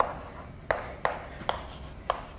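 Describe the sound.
Writing on a board during a programming lecture: faint, scratchy strokes broken by a few sharp taps, with no one speaking.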